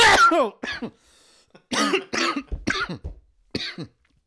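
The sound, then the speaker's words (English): A person coughs and sputters after choking on their own spit. Several harsh, strained bursts come in an uneven cluster, some with a raspy, voiced edge, separated by short gaps of silence. “oh fuck, I choked on my own spit.”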